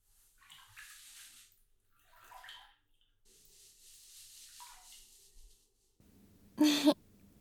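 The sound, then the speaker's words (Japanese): Water swishes and splashes while someone's back is washed in a bath: soft, hissing washing sounds come in a few gentle stretches, then a brief, much louder splash of pouring water near the end. “お背中を流しに来ましたよ。”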